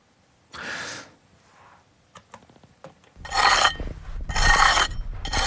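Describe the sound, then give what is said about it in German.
A trowel scrapes the soil walls of a half-metre-deep excavation pit where building remains are being uncovered. It makes a few rough, rasping strokes with softer scratches between them. “Mit einer Kelle schabt er die Wände ab und legt Millimeter für Millimeter die Überreste eines Gebäudes frei.”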